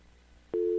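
A telephone tone cuts in abruptly about halfway through after near-silence, then holds as a loud, steady, unbroken mid-pitched hum to the end.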